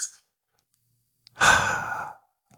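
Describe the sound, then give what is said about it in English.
A deep breath: a single long, breathy sighing exhale, fairly loud and heard alone, lasting under a second, with only brief faint sounds before and after. “take a deep breath”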